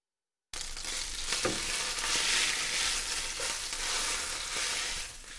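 Chicken fillets sizzling in a frying pan, a dense, steady hiss of hot oil with scattered soft crackles and pops. It holds an even loudness throughout after a brief silent start, with no voices.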